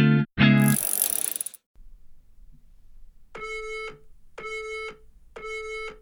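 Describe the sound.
An interval workout timer app beeps a countdown: three evenly spaced, bright electronic beeps about a second apart, after an earlier loud, harsh burst of sound at the start.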